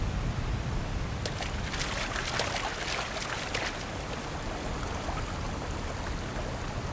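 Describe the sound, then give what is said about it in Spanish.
Splashing water as someone swims: a continuous, hissing wash of churning water at steady loudness, with a cluster of sharper splashes early on. “Bueno, creo que hay que empezar a nadar.”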